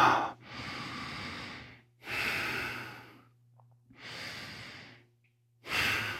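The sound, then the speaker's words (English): Deep breaths during a guided yoga session: a few long, slow, airy breaths, each a smooth swell and fade, separated by short quiet pauses over a faint steady low hum. “Deep breath.”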